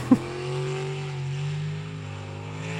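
A racing boat's engine held at full throttle gives a steady, high-revving droning roar at a constant pitch, preceded by a brief knock at the start.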